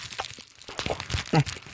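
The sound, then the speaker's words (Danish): Large bubble wrap is popped by hand, giving a quick, irregular run of sharp crackling snaps of uneven loudness. “at larme noget mere ved at lege med bobleplast mm. i radioen”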